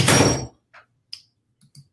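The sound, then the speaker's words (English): A door closing with one solid, loud thud, followed by a few faint, short clicks and taps. “Close the door.”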